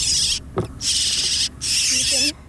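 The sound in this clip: A nestling bird being lifted out of a nest box makes harsh, hissing begging calls: three sustained raspy bursts, each under a second long, with short gaps between them, fairly loud.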